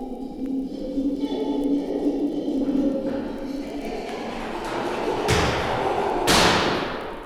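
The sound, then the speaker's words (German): A chimpanzee in a zoo braces on its hands and kicks a door with both feet, producing two booming bangs near the end over a steady, low background murmur. “in einem rasenden Crescendo bis zum ohrbetäubenden Schlussknall und Schrei, wenn er, sich auf die Hände stützend, mit beiden Füßen gegen die Türe schlägt, dass es dröhnt.”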